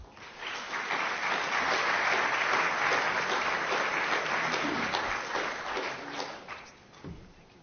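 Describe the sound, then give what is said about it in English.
Audience applause welcoming speakers: a dense, steady clapping that holds evenly for several seconds, then thins and fades out at the end. “But please just give them a hand of welcome.”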